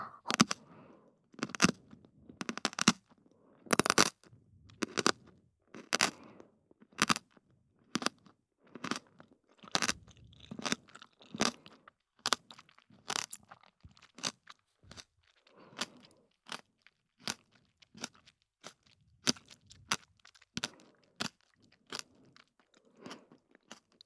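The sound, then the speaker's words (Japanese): Crunching bites of Japanese pickles: many sharp, crisp crunches in an irregular chewing rhythm, clearly audible on their own without any talk. “今度は、お漬物。これもいい音しそうですよ。いただきます。”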